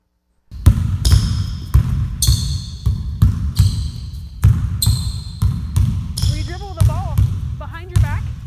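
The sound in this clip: Two basketballs dribbled at once in a drill: a long, steady run of many punchy bounces in a quick, even rhythm, with a voice talking over the final seconds.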